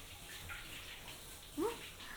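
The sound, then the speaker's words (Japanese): Hot water poured over the shoulders and neck, a faint, soft, continuous wash of running water with a brief louder splash near the end. “肩と首のところも。ここお湯で温めると気持ちいいよね。”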